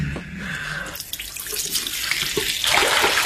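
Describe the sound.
Tap water runs into a glass with a steady rushing hiss that grows louder and brighter toward the end.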